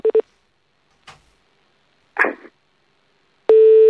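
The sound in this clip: Telephone tones while redialing a call: two short beeps at the start, a lone click, a brief rustling burst, then a steady, loud tone that begins near the end and holds.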